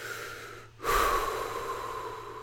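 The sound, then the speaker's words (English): A deep breath: a long, airy rush of breath that begins after a brief silence and stays fairly strong for over a second. “I'm going to take a deep breath.”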